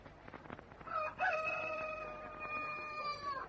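A rooster crows outside during a quiet afternoon siesta, one of a few young birds being kept to see whether they were hens or roosters. Faint clucking comes before a single long, strained crow that holds its pitch and fades out.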